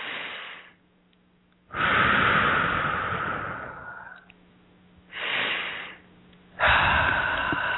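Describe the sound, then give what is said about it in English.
Deep breaths during a guided breathing exercise: a few long, airy breath sounds, the longest lasting over two seconds, separated by quiet pauses, with no talk. “Couple more deep breaths.”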